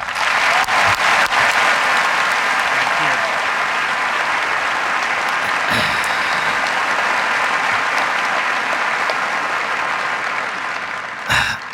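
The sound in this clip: An audience claps steadily to welcome forum speaker Ross Douthat at Brigham Young University, a dense, even wash of applause that holds for several seconds before tapering off at the end.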